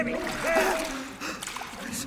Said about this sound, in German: Zwei Männer. Sie trugen Handschuhe. Der eine hatte ihn gepackt und drückte seinen Kopf in ein mit Wasser gefülltes Becken.